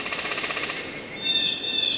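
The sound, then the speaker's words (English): Chickadee spring song in winter woods: a few clear, high whistled notes rise out of a soft, steady background in the second half. “the first I've heard in months, the very first bird song of the new year.”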